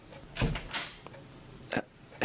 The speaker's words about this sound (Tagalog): binuksan ko na, hindi ka kasi sumasagot eh.